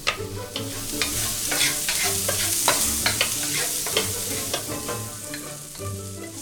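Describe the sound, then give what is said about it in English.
Shallots and garlic frying in a pan on medium-high heat, a steady bright sizzle broken by frequent scraping and clicking from stirring, with no voices. “The first step is I'm going to cut some shallots. Then fry them with a little bit of garlic on medium-high heat.”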